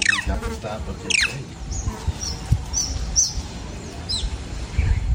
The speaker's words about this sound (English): And that's the top macaque monkey.